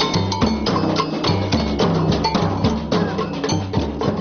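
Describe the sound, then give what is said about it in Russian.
Drums and tambourines at an equality street march pound out a fast, steady repeating rhythm with bright metallic jingles. The playing is loud and continuous. “Под звуки барабанов и бубнов участники марша равенства прошли примерно за 20 минут 600 метров”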